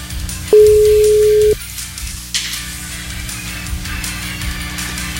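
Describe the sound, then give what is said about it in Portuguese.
Telephone ringback tone while placing a call: a single steady, mid-pitched tone about a second long, followed by faint background noise. “Tá chamando. Vamos ver se agora atende, né?”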